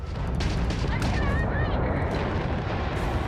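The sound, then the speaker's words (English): Spaceship weapons fire destroying an enemy ship in a space combat video game: a dense, continuous roar of blasts and rumble with a few brief whistling tones threaded through. “After destroying an enemy ship, you can loot the remains from your cockpit. Ah, ok, tu pas sortir. You can always turn any ship that engages you into scrap.”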